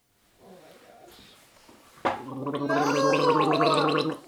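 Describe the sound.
Loud slurping of Tanzanian peaberry coffee drawn in to aerate it while tasting, a bubbling, gargle-like rush that starts sharply and holds for about two seconds after quiet speech.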